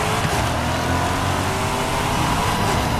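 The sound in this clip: A car driving along, with a steady low engine and road drone that holds at an even level throughout, without voices.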